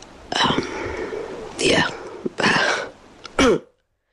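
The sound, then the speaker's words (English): Forced, exaggerated coughs from a sick woman in a voice message: a few harsh, breathy bursts with throaty rasps between them, ending on a short, sharp cough. “Performed off the cough. You're really adding to it. Yeah. You're really forcing the cough out there.”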